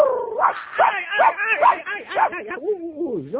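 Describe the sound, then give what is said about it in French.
Dog yips in a quick series of short, bright barks, then breaks into a drawn-out, wavering whimper that dips and rises in pitch. The calls are fairly loud and sound alone. “Gentil toutou, oui, ça va.”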